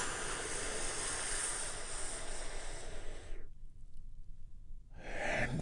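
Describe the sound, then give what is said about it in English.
Deep slow breath during a guided relaxation exercise: a long, soft, airy inhale lasting a few seconds, a quiet pause, then the start of the release. Faint and steady, with no voice heard. “take a big, deep healing breath with me right now. Here we go. And”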